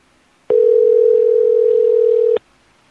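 A telephone ringing tone sounds on a call as a single steady, unbroken tone of about two seconds. It is clear and fairly loud against silence on either side.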